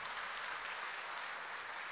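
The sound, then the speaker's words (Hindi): Audience applause for a grandmother: a dense, even wash of clapping held at a constant level, muffled and dull in tone. “बजाओ उनके लिए जितनी तालियां।”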